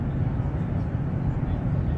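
Cabin noise from an airliner taking off on a flight to Mallorca: a steady, dense low roar of engines and airflow with no clear breaks.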